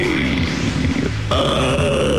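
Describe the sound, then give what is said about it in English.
A newsreader belches while reading on national radio. The burp is long, loud, low and gravelly, and it shifts in tone about halfway through as it rumbles on. “That's a BBC newsreader belching on national radio.”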